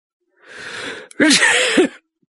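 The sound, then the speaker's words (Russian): A police station chief's sneeze: a long, breathy drawn-in gasp, a brief catch, then one loud explosive sneeze with a rough, voiced burst that drops off abruptly. “«Моя фамилия Моррисон», — чихнув, объявил мне начальник.”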